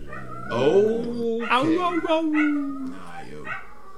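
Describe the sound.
Dogs howl in long, wavering, drawn-out tones that glide up and down in pitch, followed by a shorter, softer cry near the end.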